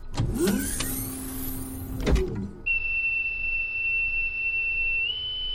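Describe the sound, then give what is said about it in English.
A spacecraft hatch opening after pressurization: a loud motorized whir and slide lasting over two seconds that ends in a heavy thud, then a steady high electronic tone that holds and steps slightly higher near the end. “Pressurization is complete. Hatch opening.”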